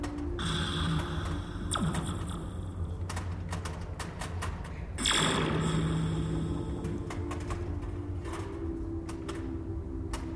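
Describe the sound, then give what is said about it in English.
Mechanical clatter from a pinball machine as its start button is pressed and the playfield walls and scoops move out, with many sharp clicks and thunks over a steady low hum. “just like a pinball machine, you hit that start button. All of the walls and scoops on the playfield come out.”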